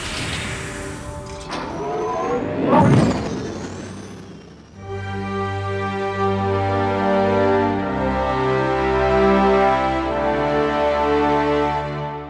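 A fictional spaceship takes off: a loud, rough roar with a sweeping burst, then a steady, powerful engine drone of layered humming tones that holds to the end, with no voices.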